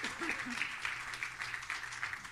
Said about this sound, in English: Can we please give our panel a hand today, a welcome hand?